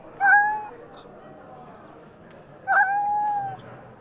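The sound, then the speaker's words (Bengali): A large black cat meows twice, two clear, drawn-out mid-pitched cries a couple of seconds apart over a faint steady background hum. “একটা কালো বেড়াল প্রকাণ্ড বড় চেহারা প্লুটোর মতোই”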